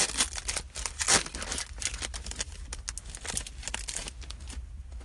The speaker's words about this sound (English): So I now have a great excuse to open this up and see what bulk rare is inside.